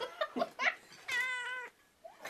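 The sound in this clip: A cat meows several times. A few quick short calls come first, then one longer drawn-out meow, then brief, quieter calls. No one speaks.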